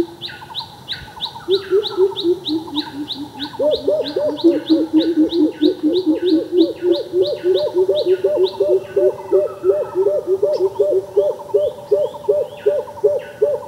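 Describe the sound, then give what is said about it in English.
Greater cuckoo calling: a long run of deep, rapid hooting notes that climbs a little in pitch partway through and then repeats steadily, while other birds chirp and tweet in high, quick bursts throughout. “there's a bird called a greater cuckoo. It's the largest member of the cuckoo family. And it's got this really distinctive call”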